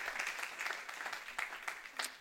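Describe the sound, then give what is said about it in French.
Congregation applauding during a French-language church sermon, a fairly soft, continuous patter of clapping hands at a steady level, with a few sharper claps standing out toward the end. “On peut dire amen à cela. L'amour de Dieu, oui, on peut acclamer Jésus, est large.”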